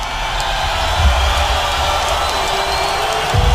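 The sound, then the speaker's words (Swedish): A crowd roars and cheers as Conor McGregor steps into the spotlight at a fight. The cheering forms a sustained, loud wash of massed voices at a steady level. “När Connor kliver ut i strålkastarljuset stiger publikens jubel till nya höjder.”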